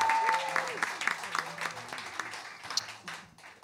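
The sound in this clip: Applause and clapping from an audience at a horror festival welcoming a guest. Moderate bursts of clapping run together, with a voice speaking over part of the applause before it fades.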